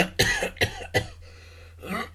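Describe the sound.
Coughing from someone who has just choked on something: three sharp, harsh coughs in quick succession, a short pause, then a softer cough.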